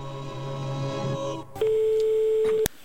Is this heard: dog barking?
no